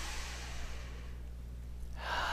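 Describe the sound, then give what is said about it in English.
A slow, deep breath drawn in during a guided breathing exercise: a steady, airy hiss that swells louder near the end over a low, constant hum. “Okay, nice breath in.”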